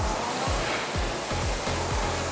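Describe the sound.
Rowing machine during the drive stroke, a steady loud whooshing roar with soft low thumps pulsing at a quick, even rhythm underneath, no voices.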